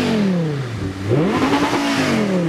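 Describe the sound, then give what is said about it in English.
A car engine revs against its rev limiter at 7,000 rpm with a loud, buzzy roar. The pitch sags, then climbs sharply and holds high with a rough, fluttering edge. “Yeah, the rev limiter is kicking in at 7,000 as it sits.”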